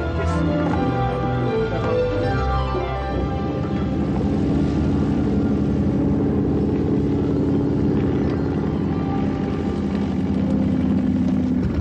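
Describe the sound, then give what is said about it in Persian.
An aircraft lands on a closed runway. Its engine gives a steady, low droning hum with a faint tonal whine that stays level throughout, and no one speaks. “شما نباید اینجا فرود میمدین، باند بسته است.”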